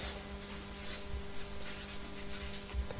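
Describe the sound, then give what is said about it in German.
Steady scratching of notes being written during a German-language religious teaching session: a continuous, faint rubbing texture with no clear breaks, over a low, constant hum. “Also schreib mal Auswirkungen und Symptome.”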